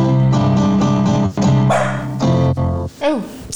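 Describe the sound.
Dog barking in time with a song, its loud yelping barks landing on the beat over full, harmonic music.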